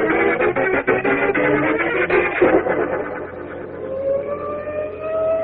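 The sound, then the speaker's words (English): Sirens wail in a loud, continuous, band-limited blare, their tones gliding upward near the end over a low rumble. “Look at all those sirens.”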